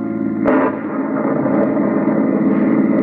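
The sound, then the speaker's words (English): A car driving fast on a stormy night gives a steady, loud engine drone. A single sharp bang cuts through near the start, then the hum continues unbroken. “A night just like the last time you drove out this way, isn't it, Tom? Stormy, dismal, dangerous. And you're driving faster than you should.”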